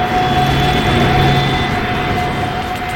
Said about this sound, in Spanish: A bordo de uno de los aviones de la organización, se dispone a iniciar el vuelo rumbo a Nashua